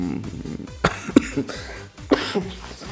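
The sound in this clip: A few sharp, loud coughs from a person break out at irregular moments, standing out as brief bursts over a quieter, steady background.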